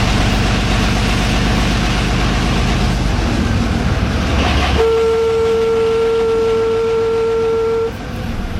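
A train running, heard from inside a non-smoking passenger compartment: a loud, constant rumble with a steady whistle-like tone joining partway through for a few seconds before the noise eases slightly.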